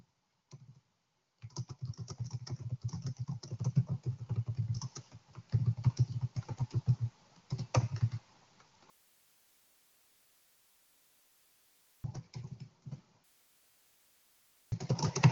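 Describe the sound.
Typing on a computer keyboard to write notes during a Resonance Repatterning session: long runs of rapid keystroke clicks broken by pauses, with a quiet stretch of faint hiss and short bursts of typing resuming near the end.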